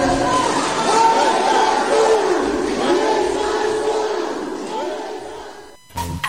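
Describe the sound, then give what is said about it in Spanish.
A large crowd shouts together at a public political rally in Uruapan, Michoacán. Many voices blend into a loud, sustained roar with chant-like rises, easing slightly near the end before an abrupt break and a short burst of noise. “Le gritaba la gente que pues se encontraba en este meeting, en este evento público ahí en Uruapan con Grecia Quirós”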